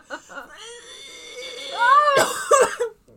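Coughing from a tickle in the throat: a few harsh, rough bursts near the end, after strained voiced sounds, moderately loud.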